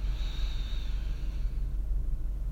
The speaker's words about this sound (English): Once more, deep breath in.